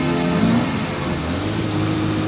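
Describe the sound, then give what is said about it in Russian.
A red Ferrari convertible sports car with the top down drives along a street, its engine giving a steady, loud mid-pitched hum with no clear revving. “улице едет спортивный красный Феррари с открытым верхом.”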